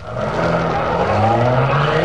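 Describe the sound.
A getaway car speeds off, its engine roaring loudly and steadily with a strained, droning note throughout the short burst, with no voices over it.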